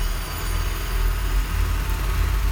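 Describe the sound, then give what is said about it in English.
A diesel engine drones in a steady low rumble during building maintenance work outside a house, with the metal staircase of a building in the complex being replaced. The rumble holds even throughout, with no clear jackhammer bursts. “going on outside of my house. There's a diesel engine and a jackhammer. Very fun stuff.”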